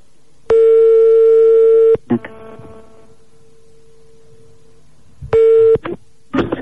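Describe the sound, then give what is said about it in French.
Telephone tones sound as a call is placed: a long, steady electronic beep, then a scatter of clicks, a shorter beep and more clicks. The tones are clear and loud, with no voices. “On appelle donc un marabout”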